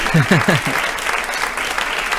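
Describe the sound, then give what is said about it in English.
A studio audience applauds with loud, steady clapping, and a voice is heard briefly at the start. “I think that deserves an applause. Take a bow.”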